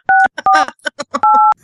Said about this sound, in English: Are you hearing this? Uh-oh, he's dialing. Oh my God, this is so cool. I actually have dial effects.